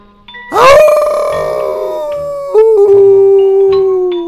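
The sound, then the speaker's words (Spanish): A human voice imitates a lone wolf howling: a loud, drawn-out wail that swoops up sharply, holds and slowly sinks, then breaks into a second, lower sustained tone that gradually fades. “mi alma me incita a aullar como lobo solitario que busca una manada”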